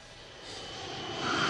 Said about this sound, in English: The family's plane arrives in Paris.